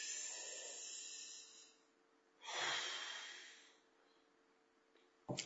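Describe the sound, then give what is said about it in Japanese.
Deep breathing during a relaxation pause partway through a test: two long, airy breaths, the second louder and rougher, then a brief sharp noise at the very end. “はい、深呼吸。”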